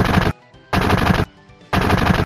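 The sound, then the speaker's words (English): Gunfire from a gun arm in a video game: three loud bursts of rapid machine-gun fire, each about half a second long, with short quiet gaps between them. “We can ride them to safety while that man with a gun arm provides cover for us!”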